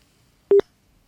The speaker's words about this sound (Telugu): Hello, hello, call cut అయిందండి.